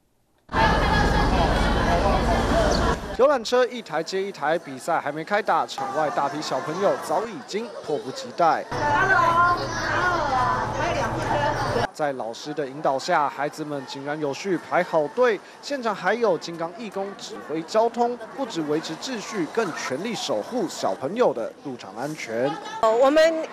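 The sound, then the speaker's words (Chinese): Excited chatter from a large crowd of children gathering outside the Kaohsiung Arena before a Fo Guang Cup game, with tour buses arriving. Many young voices overlap in a loud, dense, continuous babble after a brief silent start. “游览车一台接一台，比赛还没开打，场外大批小朋友早已经迫不及待。在老师的引导下，孩子们井然有序排好队。”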